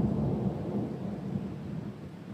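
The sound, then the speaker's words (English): Thunder rumbling through a windy night storm under heavy cloud, with no visible lightning: a continuous deep, rolling low rumble that holds steady and only slightly eases toward the end, with no sharp crack. “Crackles of thunder rumble through the sky, though no great flashes of light are seen.”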